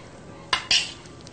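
Two sharp clinks ring out as potatoes are mashed in a bowl, the second a little louder and longer. Quiet background surrounds them.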